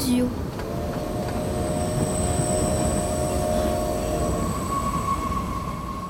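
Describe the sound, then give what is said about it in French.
An express train slows to a stop at a station. Sustained high metallic squeals from wheels and brakes ring over a dense rolling rumble, then the tones fade as the train settles. “Le Transmerveilleux Express s'arrête enfin en gare d'Illusio.”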